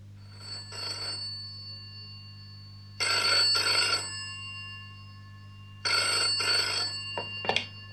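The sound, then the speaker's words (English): A telephone rings for an incoming call in an English-lesson dialogue, giving three bursts of bright, trilling double rings separated by pauses, with no voices. “Rora, an old flame of Chris's, phones him to arrange a meeting.”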